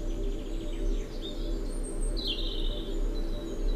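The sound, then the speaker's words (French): Birds chirp with faint, high calls and short sweeping tweets over a steady low buzzing hum that carries through the whole clip. “des gazouillis d'oiseaux, des insectes pollinisateurs”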